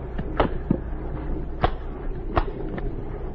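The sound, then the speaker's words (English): Cases holding bombs being shut, heard as a few short, sharp clicks and knocks from latches or lids, spaced irregularly over a low steady background. “Close the cases. We won't open them again.”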